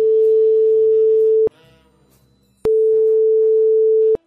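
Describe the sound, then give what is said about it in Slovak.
Telephone ringing tone heard right after a number is dialed: two steady, mid-pitched tones of about one and a half seconds each, with a short, quieter gap between them that holds faint background noise. “Mám vytočené. Ano. Voláme?”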